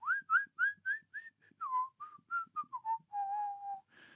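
A person whistles a soft, lilting tune alone while working on cakes. The tune is a run of short notes that bend upward, then drops to a lower, longer held note near the end.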